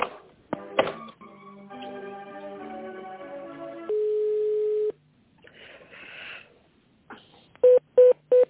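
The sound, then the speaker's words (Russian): Telephone tones as a call is transferred to another company: a short run of shifting electronic tones, a steady held tone lasting about a second, then a few sharp, loud beeps near the end. “А можно переключить на компанию Gloria Plus? Минутку соединим.”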